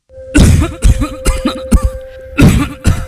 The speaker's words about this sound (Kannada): ಏನೇ ಆಳದ ಕೆಮ್ಮು ನಿಲ್ತಾನೆ ಇಲ್ವಲ್ಲಪ್ಪ?